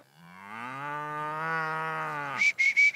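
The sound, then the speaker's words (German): An old cow, about fifteen years old, moos on a farm with one long, deep, steady moo lasting over two seconds, followed by a few short, sharp, higher sounds. “Guck, der Bulle hat uns schon gesehen, ne? Oh oh. Queen, komm. Die ist bestimmt schon 15 Jahre jetzt, die Kuh.”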